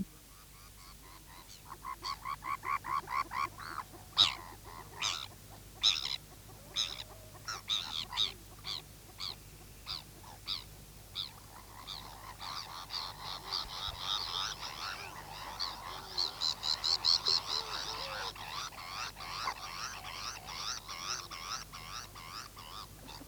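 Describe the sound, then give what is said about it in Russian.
Gulls cry in harsh, nasal, honking calls, many in rhythmic succession, growing denser and overlapping in the second half. “И велохвостые чайки сразу припали к земле, вытянули шеи и закричали: «Жуи, жуи!»”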